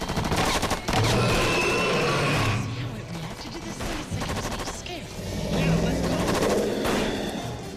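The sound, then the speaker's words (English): Soldiers keep shooting in sustained automatic gunfire. Dense bursts of rapid machine-gun fire last several seconds, with a short lull partway through before the loud volleys resume. “And the two remaining soldiers keep shooting.”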